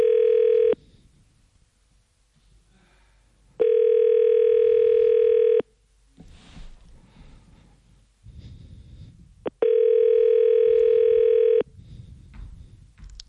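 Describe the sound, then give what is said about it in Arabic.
A telephone rings with no answer: a steady buzzing ringback tone repeats in long bursts with pauses between them, and faint rustling noise fills the gaps. “جان التليفون كيصوني، حنان ما جاوبتناش.”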